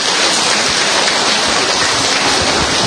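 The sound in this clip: Applause from an audience gathered at a church community event, a dense, steady wash of many hands clapping that runs unbroken and fairly loud throughout.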